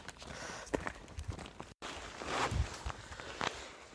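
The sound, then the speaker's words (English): Faint footsteps of hikers on a hot six-kilometre walk-in through the Rhinogs mountains: a few soft, scattered steps on the trail. “Anyway, we're on that six-kilometre walk in now, and it's hot.”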